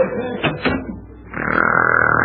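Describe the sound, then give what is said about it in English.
A kitchen door being opened, heard as a sustained creaking tone that swells in after a brief, quieter moment and then holds steady. “Now, if you're very quiet, I'll open the kitchen door.”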